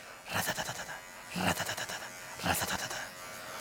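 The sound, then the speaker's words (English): A person imitates the noise a washing machine makes partway through washing a jacket: a buzzy, rattling run of rapid bursts with a couple of louder surges, voiced alone without ordinary talk. “you hear a noise coming from the washer and you hear”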